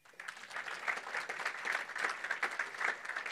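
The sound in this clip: An audience applauds to welcome a guitar player as the band is introduced at a worship gathering. The clapping is steady and dense, continuing evenly for about three seconds with no voices over it.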